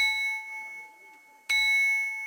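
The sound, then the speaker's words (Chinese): A handmade porcelain bowl rings like a bell after being struck, its clear high tone fading slowly. A single sharp strike near the end brings the bright ring back to full loudness. “我们刚刚敲击那碗的有钟声，这个碗还会唱歌的”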